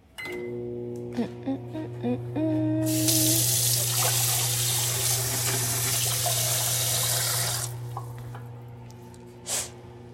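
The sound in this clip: Water gushes from a tap as hands are washed, starting after a few seconds and stopping shortly before the end, over a steady low hum, with a few short tonal blips and clicks before the flow begins.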